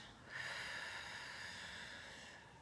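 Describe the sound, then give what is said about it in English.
Relaxation breathing through the nose during a calming exercise: one long, soft, airy breath that swells quickly and then fades slowly, faint and heard on its own. “So breathing in through the nose and breathing out.”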